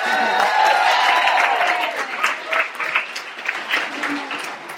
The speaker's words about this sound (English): Give them a lame clap. Give them a clap.